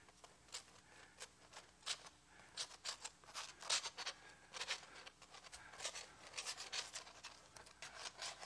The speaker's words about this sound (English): Let's take the knife and scrape it around a little bit.